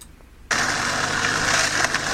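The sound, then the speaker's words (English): Skateboard wheels grinding produce a loud, rough, steady rumble that cuts in abruptly after a quieter moment and then continues without a break. “Starts off with a guy skateboarding. Mm-hmm. You can hear the wheels grinding.”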